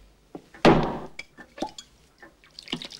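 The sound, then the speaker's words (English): Whiskey poured at a bar and spilled on the counter lands as one sharp liquid splash, then a few faint drips and light taps follow. “The bartender pours a whiskey and spills some on the counter.”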